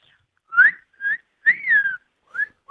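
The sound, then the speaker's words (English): A person whistles a bird call as a few clear, high notes. Some notes are short and some held, each bending up and then down, with brief pauses between them. “Oh, that was a good whistle. It was very good. Could you do it again?”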